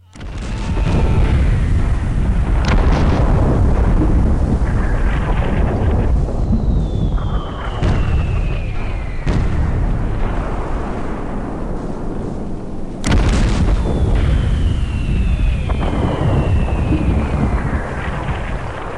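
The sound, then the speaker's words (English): Heavy artillery bombardment of the fortress at Namur by 305 mm and 420 mm siege guns: a loud, continuous rumbling roar with several sharp booms and a few high descending whistles, without voices. “The 305s and the 420s had already been set up and began their bombardment on the fortress of Namur.”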